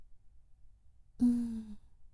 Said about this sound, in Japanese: 私が押してる間は、大きく息を吐いてね。